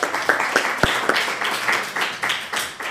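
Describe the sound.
A few separate claps open, then a steady rustling patter of light applause from a small Esperanto language class. Sparse and uneven at first, it settles into a continuous, moderate wash of sound.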